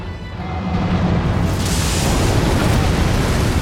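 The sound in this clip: A giant in a video game blasts a wave of snow: a loud, sustained roaring rush with heavy low rumble, holding steady for nearly four seconds.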